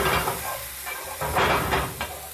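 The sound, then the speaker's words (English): Mushrooms browning in a hot pan, a constant hissing sizzle broken by a few short, louder bursts as the mushrooms are tossed and scraped with a spoon. “so I'm gonna go give it a little toss. A little scrape with a spoon.”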